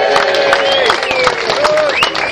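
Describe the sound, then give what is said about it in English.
An audience at a wrestlers' reunion cheers and claps, with whoops rising and falling over a dense, steady wash of crowd noise and scattered sharp claps. “A big cheer, 21 years we've been doing this.”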